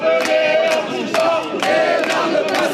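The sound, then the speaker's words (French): Anti-mayor protesters chant slogans outside the Montpellier judicial courthouse, a loud mass of voices shouting in unison, with short dips between the repeated phrases. “Au tribunal judiciaire de Montpellier, les slogans des manifestants anti-Ménard”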